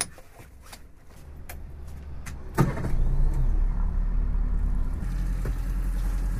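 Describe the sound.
Motorboat engine starting up on a bay: a low rumble builds and settles into a steady, throbbing drone, with a brief sharp knock partway through.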